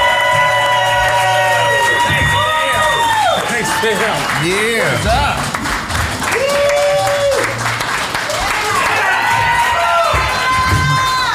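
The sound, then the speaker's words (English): A crowd at a live comedy festival show cheers and applauds as the headlining comedian comes on stage. Loud clapping mixes with whoops and shouting voices that swell and dip throughout. “Make some noise. Okay. For your headliner, Dwight Simmons! Let's go, baby.”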